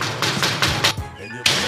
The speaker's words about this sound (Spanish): Ah, que están llamando a la puerta.